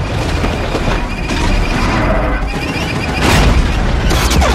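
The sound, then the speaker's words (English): Spaceship weapons fire relentlessly in a space combat video game: booming blasts over a continuous heavy rumble, with sharper bursts breaking through and getting louder toward the end. “Relentless firing.”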